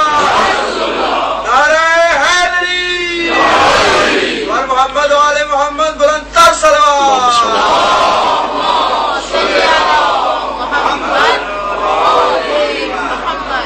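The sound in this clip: Crowd at a religious gathering shouting back in answer to the Naara-e-Takbeer slogan: loud, massed voices rise in a few strong chanted bursts, each one ringing out in unison before fading into murmur.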